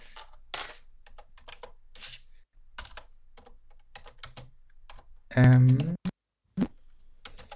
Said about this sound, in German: Ich tippe es gerade mit meiner linken Hand.